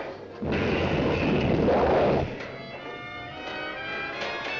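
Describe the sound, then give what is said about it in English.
Rocket engine roar as a spacecraft blasts off, a loud, dense rumble lasting about two seconds before dropping to a quieter, steadier tonal hum. “Just protect yourselves. We're blasting off.”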